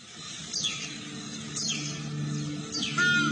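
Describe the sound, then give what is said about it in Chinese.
Bird calls from a recording of wild bird sounds: three high, sweeping whistled calls about a second apart, each sliding downward, over a steady low hum. “这是朱鹮的声音，这是金雕的声音，这是雀雉的声音。”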